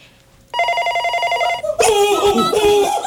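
An office telephone rings with an incoming call, giving one steady, bright electronic ringing tone about a second long that starts abruptly after a brief quiet moment, followed by louder, busier sound.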